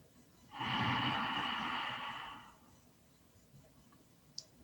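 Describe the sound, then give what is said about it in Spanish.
A single deep inhalation during a guided breathing meditation, an airy, breathy rush that lasts about two seconds and fades out, followed by quiet and one faint click. “Y ahora vamos a inhalar profundamente.”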